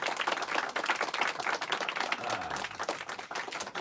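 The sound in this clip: A studio audience applauds after a live jazz song performed with guitar, vocals and saxophone, the dense, steady clapping sustained throughout without a break.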